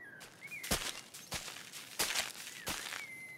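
Slow, soft footsteps of an unhurried walk, a few light, evenly spaced treads that stand apart from a quiet background.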